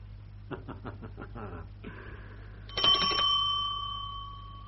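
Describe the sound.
Bell rung to summon a servant, struck once and left to ring with a bright, sustained tone that slowly fades, faint against a low background hum.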